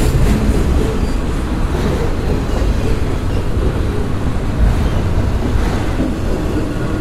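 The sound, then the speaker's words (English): A train rumbles past in a loud, steady roar of deep, heavy noise that holds at an even level from start to finish. “well, let's listen to this train a minute.”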